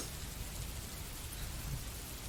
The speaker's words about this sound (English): This rain might make me sick. I don't like this.